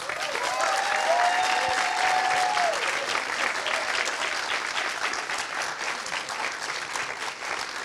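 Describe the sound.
Audience applause greets an actor from the film coming up on stage, a full, even wash of clapping that eases slightly toward the end.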